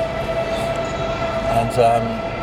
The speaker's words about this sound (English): That's a train. I thought it was someone playing a trumpet. It's a choo-choo. I thought it was a trumpet.